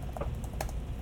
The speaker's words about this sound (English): the Surface Go type cover is gonna sound like this.